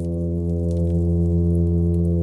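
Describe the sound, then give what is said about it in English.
Hum advertisement call of a male fish, recorded by hydrophone beside its nest: a loud, low, unbroken droning tone rich in harmonics, held steady from start to finish. “And from that rocky shelter, they produce that hum advertisement call to attract females to their nest.”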